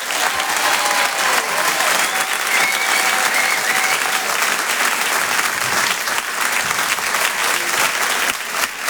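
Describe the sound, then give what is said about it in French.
A comedy club audience gives an ovation, a loud, dense wall of clapping that holds steady for several seconds, with a few cheers mixed in, before easing slightly at the very end. “Je demande une ovation, s'il vous plaît, pour Céline.”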